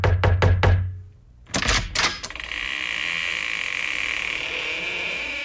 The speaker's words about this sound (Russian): Стучи, Кипитоша.